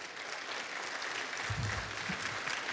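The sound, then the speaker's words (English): Audience applause welcoming a panel onto a stage: continuous, fairly soft clapping from many hands that swells slightly toward the end, with no talk. “All right, put your hands together. Let's welcome our panel to the stage as they come on up.”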